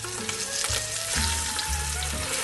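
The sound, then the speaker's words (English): Pork shoulder sears in a hot pan for a ragu, giving a continuous, fairly soft crackling sizzle that stays steady throughout with no talking. “I'm going to add our pork shoulder to this pan and get a nice sear on it. So here we go, we're going to drop it in.”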